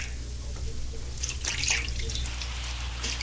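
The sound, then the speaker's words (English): Water gently splashes and trickles as feet are washed. The splashes are soft and faint over a steady low hum, swelling briefly in the middle. “He is washing my feet like a common servant.”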